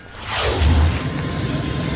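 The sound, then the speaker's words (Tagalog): Whooshing roar of a Philippine Air Force helicopter flying out from an airport: a loud, continuous low rumble with a broad rushing sweep of air through the whole stretch, and no voices. “Mula Jansan Airport, lumipad ang helicopter ng Philippine Air Force papunta sa Balut Island sa Davao Occidental.”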